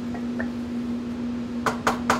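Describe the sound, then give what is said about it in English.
Three clattering knocks near the end as food is scraped from a nonstick pan with a wooden spoon into a KitchenAid stand mixer bowl, over a steady low hum. “So what we'll do is we'll put it in our KitchenAid here.”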